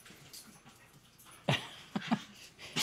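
Dogs whimper and yelp in a few sharp, loud bursts in the second half, over quiet background noise with fainter whines earlier.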